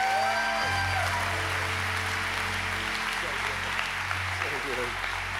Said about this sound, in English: Church, put your hands together and congratulate the newest members of the body of Christ.